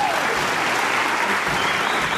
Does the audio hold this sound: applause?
yes